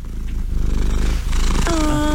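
A cat purrs in a steady, rhythmic low rumble that pulses continuously and fairly loudly on its own throughout.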